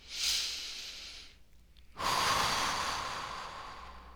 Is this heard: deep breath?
yes